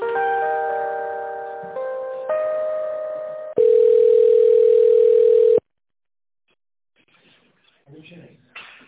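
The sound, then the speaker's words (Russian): Telephone line tones while a call is being transferred: a few steady, buzzy multi-pitch tones, then one louder single steady tone lasting about two seconds, then silence before a faint voice. “Но я пока вас переключаю”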